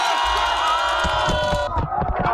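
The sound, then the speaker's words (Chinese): A crowd cheers and shouts at the end of a summer neighbourhood pond contest, where red and yellow teams competed to catch water balloons. The cheering is loud, sustained and lively, with excited voices mixed in. “荷塘趣味比拼圆满结束，整片池塘久久回荡着大家的欢笑与喝彩。”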